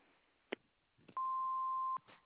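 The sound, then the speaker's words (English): A voicemail tone sounds before a message is recorded: one steady mid-pitched beep lasting under a second on a narrow telephone line, with a few soft clicks before it. “Please leave a message at the tone and we will return your call as soon as we can.”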